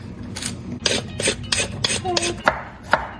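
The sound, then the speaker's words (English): Rasping scrapes of a peeler stripping a carrot, made while cooking with a child. Several short strokes fall in an uneven rhythm, each a dry, moderately loud scratch. “While you do that, I'm going to peel the carrot, okay?”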